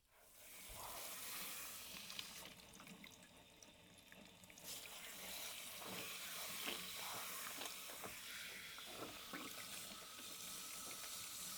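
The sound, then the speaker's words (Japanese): Water runs steadily from a tap to rinse something off, a continuous broad hiss with small splashing fluctuations and no pauses throughout. “はい、流します。”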